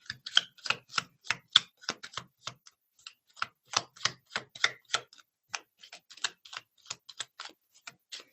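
Cards being shuffled by hand, a long, uneven series of crisp, sharp taps and slaps with short pauses between runs, heard alone and moderately loud.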